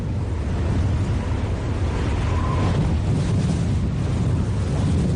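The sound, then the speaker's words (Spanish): Strong wind gusting in Santander during a coastal storm under a red warning: a loud, constant low roar of buffeting wind that never drops away. “Sin duda, este sonido ha marcado el desarrollo de la madrugada. Ha dejado rachas de 111 kilómetros por hora en Santander.”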